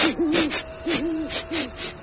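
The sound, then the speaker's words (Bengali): An eagle-owl hoots at night, giving three deep, wavering hoots spaced about evenly apart, loud and clear with no voices. “গাছপালায় বাতাসের সরসর শব্দ হচ্ছে, একটা হুতুম পেঁচা আর এক ঝাঁক শিয়ালের ডাক শোনা গেল।”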